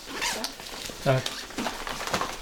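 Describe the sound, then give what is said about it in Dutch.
Rustling and quick zip-like tearing of packaging as headphones are unpacked, a few short scraping bursts heard under talk. “Koptelefoon uitpakken.”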